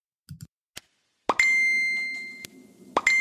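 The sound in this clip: Notification ding sound effect: a few soft, short pops, then a bright chime with a sustained ringing tone, followed near the end by a second chime strike. No talking is present.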